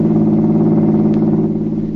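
A large black car drives along a business street, giving a loud, steady, low engine drone with a rich humming tone that holds evenly throughout, with no voices.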